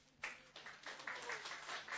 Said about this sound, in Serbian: Hvala. Aplauz.